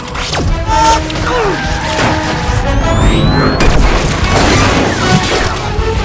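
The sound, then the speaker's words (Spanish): Gunshots in a rapid, chaotic volley: many sharp cracks and heavy booms layered with whizzing streaks and clattering impacts, loud throughout. “¿Estás disparando otra vez? Ya cállate.”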